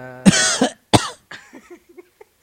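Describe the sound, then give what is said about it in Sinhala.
A person coughs in the middle of a conversation, with a few loud, harsh coughs in quick succession followed by quieter throat sounds that trail off. “ඔය Java කිව්වම් පොඩ්ඩක් කහිනවා”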